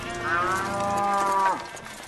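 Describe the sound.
A bull's single long, low moo, one of many bulls and sheep offered in sacrifice before the Ark of the Covenant. The bellow is drawn out and steady, then drops sharply in pitch as it ends.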